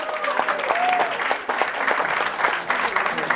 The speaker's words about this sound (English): Another big round of applause.